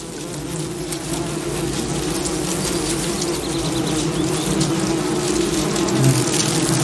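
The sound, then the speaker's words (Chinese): Droning buzz of worker bees rapidly fanning their wings to cool their nest, a continuous low hum that holds steady and grows slightly louder toward the end, with no voices. “工蜂会快速扇动翅膀给巢穴降温，使巢内的温度保持相对稳定”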